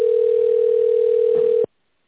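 A telephone ringing tone sounds as one steady, even single-pitched beep held for about a second and a half, then stops abruptly, leaving silence.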